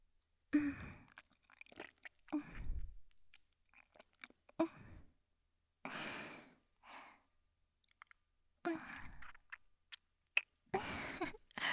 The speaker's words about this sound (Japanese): じゃあごっくんしてあげるね。 耳元で飲んであげる。いくね。